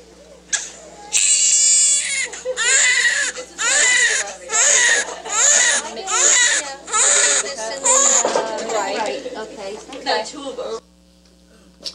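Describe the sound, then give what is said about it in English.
A newborn baby cries just after birth in surgery, with loud, repeated wailing bursts in a steady rhythm over a low, constant hum, fading to quiet at the end. “It's a beautiful sound, isn't it? That moment of a baby's birth, it's a special, miraculous, life-changing moment.”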